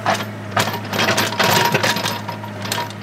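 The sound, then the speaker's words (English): A small excavator with a patched, torn tread digs out a mountain trail between trees with its bucket. A low steady engine hum runs beneath several loud scraping, clanking bursts of dirt and metal. “That's the next step, digging out the trail itself with the machine's bucket.”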